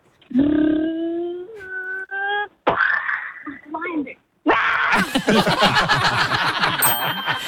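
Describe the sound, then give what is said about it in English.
A 6-year-old child vocally imitates a lion caught in a car crash: a sustained, tonal voiced call and choppy vocal bursts give way to a harsh, noisy, roaring stretch of mouth sounds. “can you please be a lion that's involved in a car crash?”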